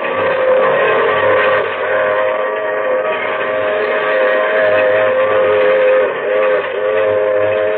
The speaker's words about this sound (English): And the hours go by, and I'm there with him locked in a boxcar. And the wheels keep pounding underneath.